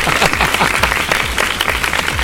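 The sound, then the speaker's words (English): Audience applause for a contestant who has won two of the last three weeks: dense, steady clapping that stays loud and even across the whole stretch, with no voices over it. “he deserves a round of applause for that, didn't he?”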